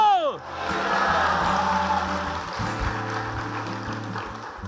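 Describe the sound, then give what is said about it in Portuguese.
Audience clapping at a Catholic religious gathering, a dense, steady wash of applause with crowd cheering and voices, mixed over sustained music that runs through the whole moment. “Se é para ela, você capricha nessa palma aí, pelo amor de Deus.”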